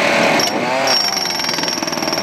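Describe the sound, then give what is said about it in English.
A jackhammer digs into hard Arctic permafrost to make large pits, with a loud, continuous, rapid metallic hammering that stays steady throughout. “It's hard stuff. You have to use a jackhammer to get down into permafrost.”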